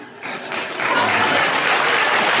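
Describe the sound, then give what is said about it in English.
Audience applause swells from a quieter start into a full, dense roar of clapping within the first second, then holds at a loud, steady level to the end. “I don't know why the audience claps for that.”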